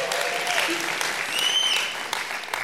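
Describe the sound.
Warm applause at a church young adults service welcoming a first-time visitor, a loud, continuous patter of many hands that stays level throughout, with voices over it.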